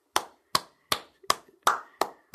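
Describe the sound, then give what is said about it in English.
Hands clap seven times in a slow, steady rhythm. Each clap is sharp and quickly fading, with quiet gaps between, and the last one is cut off at the end. “to clap for it.”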